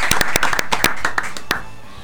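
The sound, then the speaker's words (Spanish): Sparse applause welcoming a columnist in a radio studio, made of a handful of sharp, scattered hand claps in an uneven rhythm that thin out and end after one last clap. “Lo recibimos con un aplauso a Matías también.”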